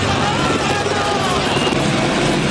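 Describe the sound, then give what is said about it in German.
Steady, dense roar of helicopters circulating above a city street during police operations, with two helicopters present, holding loud and even throughout without clear pauses or distinct rotor beats. “Mittlerweile sind zwei Hubschrauber bei uns. Ein zweiter Hubschrauber ist gekommen.”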